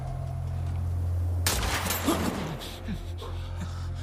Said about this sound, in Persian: از کجا شلیک شد؟ تک تیرانداز.